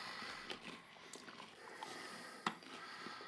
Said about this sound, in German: Das, ich esse jetzt mal den Becher. Mhm. Mhm. Sehr waffelig